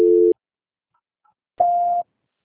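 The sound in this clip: Telephone line tones during a call transfer: two short electronic beeps, the first lower and brief, the second higher and slightly longer, separated by a second of silence.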